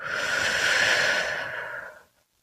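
A deep breath during a guided meditation: one long, airy whoosh of breath that holds steady for about two seconds, then tapers away into silence.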